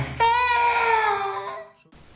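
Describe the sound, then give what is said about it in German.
A child cries out in one sustained, tonal wail that holds steady, then fades and breaks off, followed by brief quiet. “Ich glaube ja, aber warum das Kind letztendlich geweint hat, keine Ahnung.”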